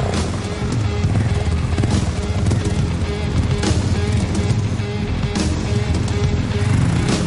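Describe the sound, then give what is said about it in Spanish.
Motorcycle engine in the 1996 film Bwana, a loud, rough, continuous roar that keeps a steady level for several seconds. “El rubio se coloca el casco y va hacia su moto para perseguir a Rafa dejando a la joven con Dorion Basi. El chico moreno se sienta en la moto tras él.”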